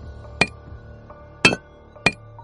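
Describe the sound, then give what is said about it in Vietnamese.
A chisel striking a stone stele one blow at a time: three sharp, ringing metallic clinks at uneven intervals, each decaying quickly over a low, steady hum. “Lão sư phụ đang gõ đục tấm bia đá từng nhát một.”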